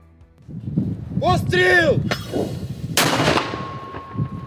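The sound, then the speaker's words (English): A mortar round fired by a crew at the front line against positions in Soledar: one loud, sudden blast with a trailing rumble, preceded by a smaller sharp crack, with voices talking before it. “One mortar round off, the crew prepares for the next.”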